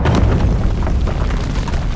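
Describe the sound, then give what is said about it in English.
A loud, deep booming rumble from lightning striking a cave during a storm, filling the whole short clip as one sustained, heavy roar. “What the heck? Did we just get hit by lightning? Well, technically, the cave was hit.”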